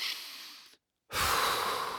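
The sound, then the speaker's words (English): A person takes a large, deliberate breath: two airy rushes of breath separated by a short silence, the second louder and fuller. “you might very well notice your body, your breath, take a kind of a larger than average spontaneous breath, like a,”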